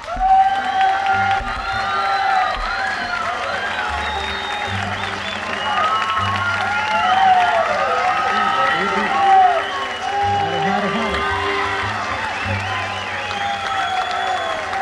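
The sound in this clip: Audience applause and cheering welcoming Bill Monroe at an event in Livonia, Georgia: a sustained, loud wash of clapping with whoops, and voices and tonal sounds layered over it throughout.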